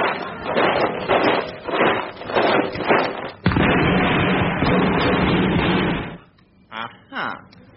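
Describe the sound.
A volley of gunfire from rebels hidden behind trees, firing on soldiers in bright red uniforms, bursts in abruptly after voices as a dense, loud crackling roar lasting a few seconds, then gives way to quieter sounds.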